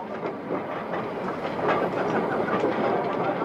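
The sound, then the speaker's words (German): An armoured face conveyor starting up in an underground coal mine gives a dense, steady mechanical rattle and clatter that grows slightly louder about halfway through and then holds at an even level. “Und dann läuft der Panzerförderer an.”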